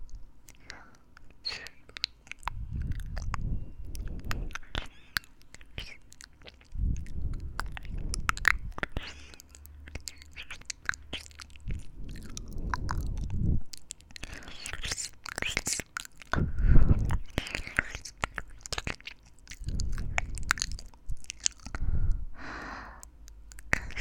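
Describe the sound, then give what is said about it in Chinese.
Wet ear-licking mouth sounds in an ASMR session: soft smacks, licks and clicks repeat many times, with breathy sighs and faint whispering between them. “想被我舔耳朵吗？让我来试试吧。”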